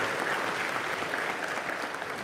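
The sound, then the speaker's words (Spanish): Audience applause at a debate, a dense, steady wash of many hands clapping that holds at an even loudness from start to finish. “Aplauso para el hermano Eduardo.”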